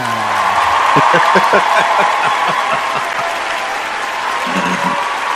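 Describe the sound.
Steady audience applause greets a guest introduced at a community cooking event. The thick clapping runs throughout with a few voices calling out over it.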